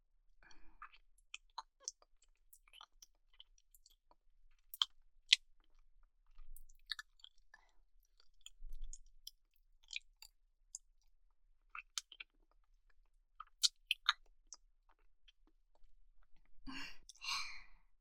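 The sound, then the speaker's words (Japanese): Deep tongue kissing: a long run of soft, wet smacking, slurping and clicking mouth sounds, irregular and fairly faint throughout, with no talking. “じゃあ次はベロ入れてチューしてあげる。”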